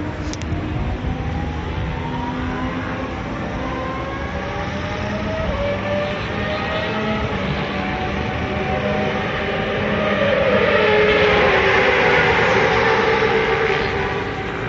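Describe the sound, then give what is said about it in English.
An Aston Martin Valkyrie is driven hard at Fuji racetrack, its high-revving engine a continuous loud roar with repeated rising pitch sweeps, growing louder toward the end. “Here I am at the Fuji racetrack, and if you want to know what a Valkyrie sounds like when it's driven in anger, here it is.”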